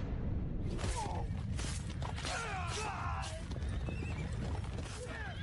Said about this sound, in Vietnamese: Tào Lân phi ngựa điên cuồng trong đêm tuyết